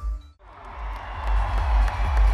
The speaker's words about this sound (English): Ireland have entered the arena to a massive cheer here in Abu Dhabi.